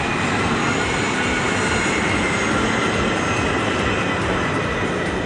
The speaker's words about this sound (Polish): Mały samolot o skrzydłach rozłożystych jak szybowiec przetoczył się przez betonowy pas amerykańskiej bazy lotniczej w Peszawarze w Pakistanie i o 5:36 wzbił się w powietrze.